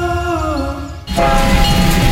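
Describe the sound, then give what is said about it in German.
A park railway steam locomotive in Cottbus: a steady, wavering whistle-like tone that stops abruptly after about a second, followed by loud, continuous hissing and rumbling noise. “Erlebt die Dampflok Graf Arnim live in Fahrt”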